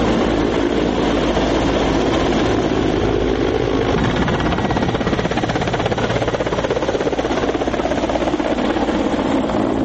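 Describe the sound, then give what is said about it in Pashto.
Mi-17 helicopters on test flights at an Afghan air force training base near Kabul give off a loud, steady roar of rotor and engine noise that holds without a break for the whole stretch, with no talk over it. “کابل ته نږدې د افغان هوایي ځواکونو د روزنې په اډه کې افغان پیلوټان د می ولس اس ډوله عیارو شویو هلیکوپټرو ازمایشي الوتنې او تطبیقات ترسره کوي.”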